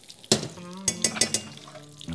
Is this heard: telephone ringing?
no

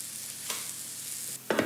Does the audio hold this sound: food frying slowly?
yes

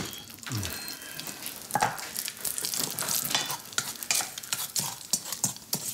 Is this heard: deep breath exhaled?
no

